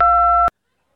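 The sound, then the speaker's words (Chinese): A single steady electronic beep marking the start of a voicemail recording. It is a clean two-tone note held for about half a second, then cuts off abruptly into silence. “您已进入语音信箱，闭声后请留言。”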